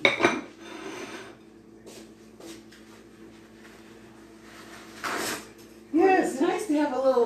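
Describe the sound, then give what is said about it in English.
A plate and knife clink and clatter in a kitchen while Trini black cake is prepared, in a few brief bursts against a quiet background, with people talking at the end. “got me a plate I can put under this. It will feel more, yeah. Okay, and I need a knife.”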